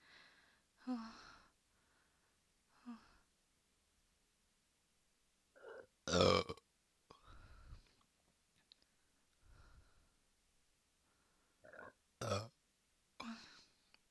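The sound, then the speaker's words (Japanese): Repeated burping from one person: many short, quiet belches and gulping sounds spread across the stretch, a couple noticeably louder, separated by silent pauses. “ゲップ止まんない。すごいゲップ止まんないよ、どうしよう。”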